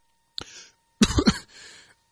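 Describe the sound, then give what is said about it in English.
A man coughs while choking on his own saliva: one short cough, then a harsh burst of a few rapid, throaty coughs, trailing into a softer wheezy breath. “Excuse me. Sorry, all right, I'm choking on my own spit here.”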